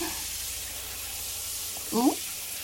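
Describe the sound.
Running water rinses off a body during a bath, heard as a steady, soft hiss that holds evenly throughout, with a brief voiced sound rising near the end.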